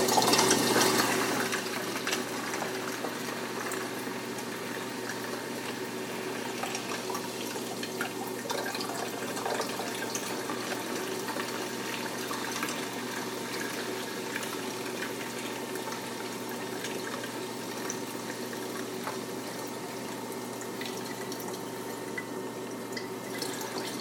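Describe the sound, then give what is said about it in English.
Water is poured slowly into a 2-liter bottle, making a steady, soft trickle with a faint bubbling texture. The sound holds at an even level throughout, with a slightly louder start and no voices. “Pour it into the 2 liter bottle. Again. Slowly.”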